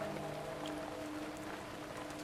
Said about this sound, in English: Outside, rain pours over the house.